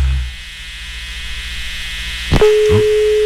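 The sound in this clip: A telephone tone from a failed phone call: after low hiss and a short click, a steady single-pitch tone begins partway through and holds unbroken to the end.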